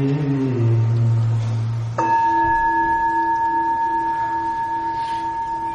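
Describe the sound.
A mindfulness bell in a Buddhist setting is struck once, right after a low chanting voice ends, and its clear tones ring on in a long, steady sustain to the end.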